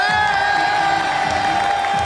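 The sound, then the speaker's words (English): Crowd cheering and whooping fills a political rally for Nigel Farage, a loud, steady roar of voices with shrill whoops rising above it throughout, never dropping away. “And everyone in the crowd is whooping,”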